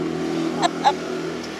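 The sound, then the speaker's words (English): Steady low engine drone from a quad bike (ATV) driving alongside in Annweiler, with two brief louder bursts about a quarter-second apart rising over the continuous hum. “with a nice little quad driving beside us”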